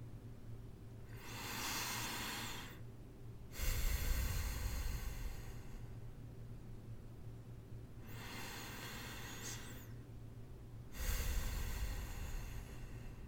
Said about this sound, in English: Breathe deeply.